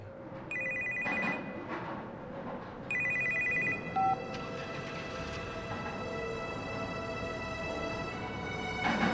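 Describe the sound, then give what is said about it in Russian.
A father's mobile phone rings in a few bursts of bright, electronic ringtone over steady background noise, with the ringing growing more continuous toward the end. “Звонит мобильный отца.”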